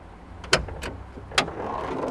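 A car bonnet is opened: two sharp latch clicks with a fainter knock between them, then a low, steady rumble of the car as the lid is raised.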